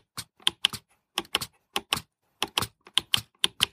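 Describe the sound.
The navigation bar keys of a compact braille display click repeatedly, giving many crisp, pronounced clicks in irregular clusters separated by brief pauses.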